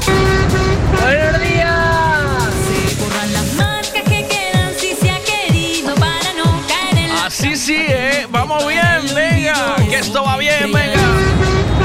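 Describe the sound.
Car horns honking in a dense, overlapping chorus of toots, loud and continuous throughout, with voices mixed in.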